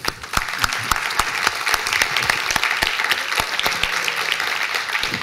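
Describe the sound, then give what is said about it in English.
Sustained audience applause after a talk, many hands clapping in a dense, steady patter that holds at an even loudness throughout, with no voices over it. “Thank you very much, Jamie. Let's give him a hand.”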